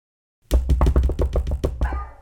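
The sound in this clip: Knuckles knock on the wooden door of a hunter's house in a village: a steady run of many quick, low, hollow knocks in an even rhythm, loud and alone with no voices.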